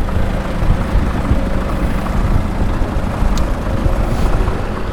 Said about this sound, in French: la quasi-intégralité des véhicules qui passent et qui s'apprêtent à aller vers le rond-point